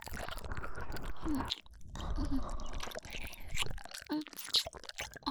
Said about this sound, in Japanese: では、もう少し刺激を与えるために少し噛んでみますね。